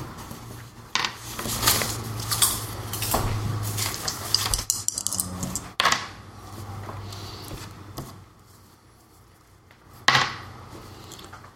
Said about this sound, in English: what dice were you just rolling? Well, the D8 for the smarts.